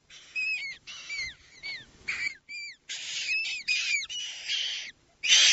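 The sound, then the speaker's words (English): Galapagos penguin chicks call from inside lava tubes on a volcanic-rock coastline, giving many short, high, whistling chirps with quick swooping pitch, sounding in close bursts with brief gaps between them. “The chicks of Galapagos penguins. Without the lava tubes, they wouldn't survive.”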